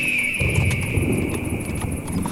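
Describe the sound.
Horses are ridden along, one of them carrying two riders. Dense, steady hoof clopping rolls on without a break under a continuous high background tone.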